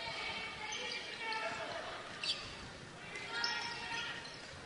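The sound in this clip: A basketball is dribbled during a girls' high school game between Boonville and Washington. A few dull bounces rise out of steady crowd noise.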